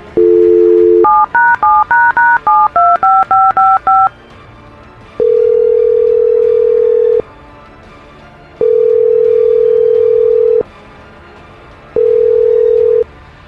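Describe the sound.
A telephone number is dialed on a touch-tone keypad: a quick string of short, bright beeps, followed by three long, steady ringing tones with pauses between, loud and without voices.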